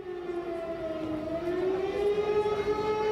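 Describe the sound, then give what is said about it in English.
An air raid siren sounds outdoors beside the parliament building in Magdeburg during a protest by activists. Its steady, buzzy wailing tone holds and then slowly rises in pitch, growing slightly louder, with no speech over it. “If you can hear an air raid siren going off in the background, it's because there are activists where I am, next to the Parliament building”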